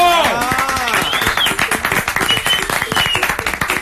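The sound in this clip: A studio audience applauds, a dense patter of many quick hand claps building into steady loud clapping, with a voice speaking over the opening moments.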